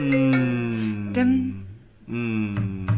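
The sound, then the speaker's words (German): A telephone rings for an incoming call with a melodic electronic ringtone: sustained harmonic tones, a brief pause, then the melody starts again. No one talks over it. “Wer hat denn da angerufen? Meine Oma aus dem Saarland.”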